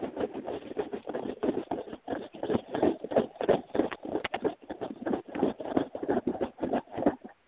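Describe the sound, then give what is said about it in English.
A blind bag toy package holding a small pony figure is shaken, giving many rapid crinkly rustles and soft rattles in an uneven rhythm, with no talking. “did you hear the shaking?”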